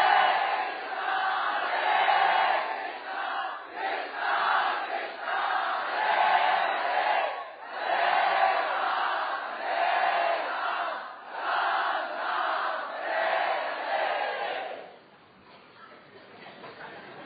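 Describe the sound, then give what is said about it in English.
A crowd chants the Hare Krishna mantra in unison, a dense, steady wall of many voices rising and falling in rhythmic waves, then dropping to a quieter murmur near the end. “If you can chant much louder, please, it will be very nice. Hare Krishna, Krishna, Krishna, Krishna, Hare Hare.”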